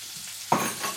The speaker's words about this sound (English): And again, I'm going to melt the butter. And now what I'm going to do is I'm going to throw in the leeks.